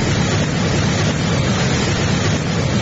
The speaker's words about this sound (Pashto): د اروزګان ولایت د خاص اروزګان پر ولسوالۍ د سیلاب د خړو اوبو بې رحمه څپې